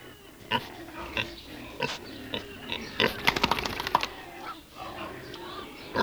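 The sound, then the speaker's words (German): Pigs grunt and snort in a pigsty, making many short, rough grunts at an uneven pace. They fall into a denser burst in the middle and stay fairly quiet overall. “Wenn der Bauer hereinkommt, ist im Schweinestall was los.”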